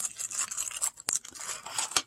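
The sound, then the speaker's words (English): A miniature plastic baggie is opened carefully rather than torn, giving a faint, continuous crinkly rustle with a few sharper crackling snaps. “I'm going to sort of open the bag instead of tearing it open in case I'm going to send this one back.”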